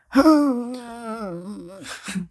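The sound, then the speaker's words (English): A drawn-out old man groan, a voiced tone held fairly level for over a second before sinking in pitch at the end, then a short second vocal burst. “which is a vibe. classic old man groan.”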